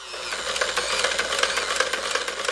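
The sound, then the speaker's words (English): Antique 1800s sewing machine running with a fast, steady mechanical clatter of evenly spaced ticks over a constant whirring hum. No voices. “That's the sound of a sewing machine from the 1800s.”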